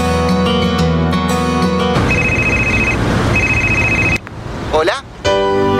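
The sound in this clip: A telephone rings in two short bursts of a steady, high electronic tone, set against busy music.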